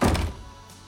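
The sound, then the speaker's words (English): A front door being shut, one heavy thunk that is loud at first and then fades quickly into a low, quiet tail. “The narrator comes in and shuts the door behind him.”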